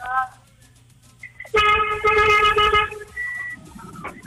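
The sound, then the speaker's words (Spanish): A car horn blares in one sustained, steady note lasting more than a second, with a few shorter tones and a brief voice around it. “¡Toca el pito, mi amor!”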